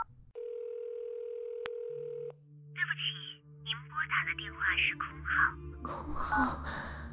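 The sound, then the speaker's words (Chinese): A telephone tone after a frightened woman dials a call: one steady, unbroken tone at a single pitch holds for about two seconds, then gives way to agitated breathy sounds. “白薇薇惊恐中拨响了徐子琛的电话。”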